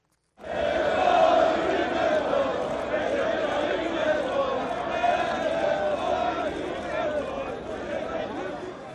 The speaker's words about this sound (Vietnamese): Các ủng hộ viên đảng AKP đã ăn mừng trên đường phố Istanbul đến tảng sáng hôm sau.